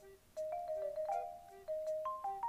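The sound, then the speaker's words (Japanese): A phone's text message notification sounds as a bright, melodic ringtone-style jingle of several clear tonal notes, split into two short phrases. “今俺誰からなんかテキストメッセージ来たか分かってんの”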